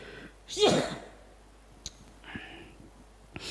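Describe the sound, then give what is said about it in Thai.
A single loud sneeze from a person said to have COVID bursts out near the start, followed by a few faint clicks and soft taps in otherwise quiet surroundings. “โควิด เข้าแล้ว มันจามแล้ว”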